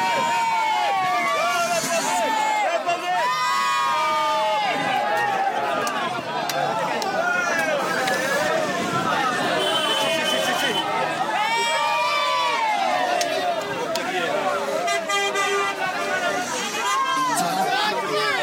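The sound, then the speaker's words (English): A partying crowd on Mont Ventoux cheers and shouts as the Tour de France passes, with many voices whooping and calling over a steady roar of chatter. “Anyway, that gives you an idea of the party that's going on up here on Mont Ventoux.”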